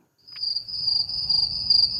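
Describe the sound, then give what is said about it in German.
Crickets chirping in a meadow on restored former farmland, a continuous high-pitched trill that starts after a brief silence and holds steady and clear throughout. “Es summt, zirbt und blüht.”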